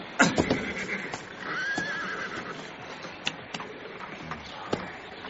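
A horse whinnies and its hooves clop as a rider dismounts for a search, opening with a sharp neigh followed by a few scattered hoof knocks over a low background.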